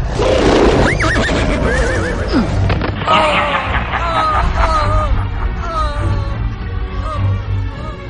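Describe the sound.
A horse neighs while being attacked, giving loud, shrill whinnies again and again in wavering calls over a dense, constant rumble that fills the whole clip.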